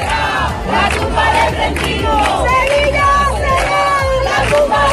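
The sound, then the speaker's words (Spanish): A protest rally crowd outside the government delegation office in Seville chants in unison, many voices shouting in a loud, steady rhythm that carries through the whole clip. “Concentraciones frente a la delegación del gobierno en varias ciudades españolas. Esto es Sevilla.”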